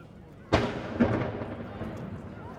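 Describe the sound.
A cannon shot fired daily at one o'clock from a famous city landmark, a tradition used to set ships' chronometers: one sharp, heavy boom that is loud against the quiet before it, followed by a long rolling decay.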